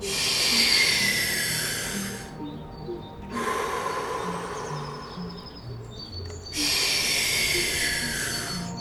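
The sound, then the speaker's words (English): Deep breathing during a guided sleep breathing session: three long, airy breaths in and out, each a loud, steady rush of air separated by short quieter gaps, with soft low tones underneath. “Drive the air in. Exhale naturally.”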